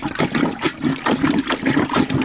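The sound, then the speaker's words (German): A rubber plunger pumped up and down in a bucket of water, making many quick, rhythmic wet sloshes and gurgles. “Ich hatte einen Gummipümpel und mit einem Eimer, da war Wasser drin und dann habe ich so gemacht.”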